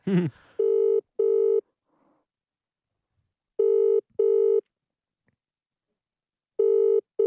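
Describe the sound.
A telephone rings out on a call home, its tone coming in repeated double bursts. Three pairs of rings are separated by long silent gaps, after a brief sound at the very start.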